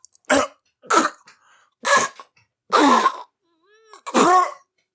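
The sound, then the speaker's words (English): A person clears their throat and coughs in about five rough, hacking bursts, joking that it sounds like a cat bringing up a hairball. “excuse me, I get a hairball.”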